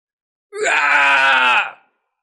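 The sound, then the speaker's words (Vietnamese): A man shouts loudly in a frenzy: a single sustained, harmonically rich cry that cuts in sharply, holds for over a second at full strength and then drops away. “Tên này hét lớn, tóc tai bù xù như lâm vào điên cuồng.”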